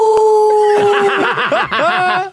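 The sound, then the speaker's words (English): People imitating a wolf howling at the moon, with voices sliding into long, wavering, repeated ooh-ooh howls, loud and shaky in pitch, which break up toward the end. “Can we howl at the moon together? I don't know how to howl. So you just go, ooh, ooh, ooh, but like an animal.”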